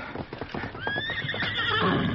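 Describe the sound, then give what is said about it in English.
A horse whinnies in a long, high, wavering call as hooves clip-clop rhythmically, the horses being fetched for riding; many steady hoof clops lead in before the loud neigh rises and carries on over continued hoofbeats. “Come on, we'll get our horses.”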